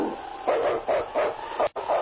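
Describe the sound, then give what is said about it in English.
A sled team's lead dog in the snowy Northwest barks in a quick, regular series of about five sharp, mid-pitched barks, clear and fairly loud, with no speech over them. “It's Yukon King, swiftest and strongest lead dog of the Northwest”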